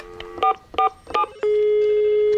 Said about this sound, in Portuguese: Deixa eu ligar pro contador.